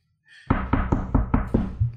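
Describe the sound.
Knuckles rap on a door in a quick series of seven evenly spaced, solid knocks. Each one is a firm, woody thud with a short decay.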